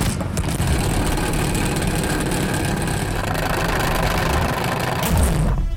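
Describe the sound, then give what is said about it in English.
A salad spinner being spun, producing a loud, steady whirring rumble with a rattling edge. It runs continuously for about five seconds and then stops abruptly. “let's spin the Salad Spinner. Does one of you want to have a turn to spin the spinner?”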